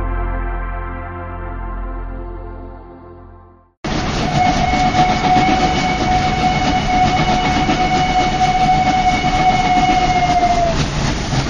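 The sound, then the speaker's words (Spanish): A train pulls in at platform 4 of a station at the end of its line: a sustained tonal horn-like note fades out, then a loud, steady rumble of wheels carries a long, high whistling tone. “Atención, atención. Tren procedente de Misterios y Leyendas efectuará su entrada en la vía 4, final de trayecto.”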